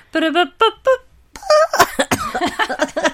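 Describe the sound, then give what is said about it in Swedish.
A voice imitates a celebratory fanfare jingle with a few short sung notes, then lively talking follows. “Förlåt, det var verkligen en ovärdig jingel. Men en fanfar för Majgull.”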